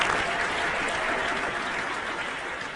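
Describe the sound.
Audience applause welcoming newly introduced staff members at a gathering: a dense, steady wash of many hands clapping. It holds at an even level for the whole stretch, with no voices standing out.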